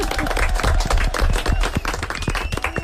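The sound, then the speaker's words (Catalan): Applause from a group during a playful movement game, dense clapping that holds steady and fairly loud for the whole stretch, with no pause and no voices standing out. “Un aplaudiment, molt bé.”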